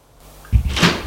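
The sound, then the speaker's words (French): A door opens: a near-silent start, then a low thud at about the halfway point, followed by a brief rustling, creaky swell that fades quickly. “Une porte s'ouvre.”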